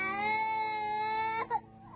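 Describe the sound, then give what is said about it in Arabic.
An infant in Gaza cries for milk during a hunger crisis: a sustained high, tonal wail that breaks into a short sob near the end. “يستصرخ هذا الطفل الرضيع باكيا طالبا الحليب والغذاء الذي لم يعد والده قادرا على توفيره في ظل أزمة الجوع التي تعصف بقطاع غزة”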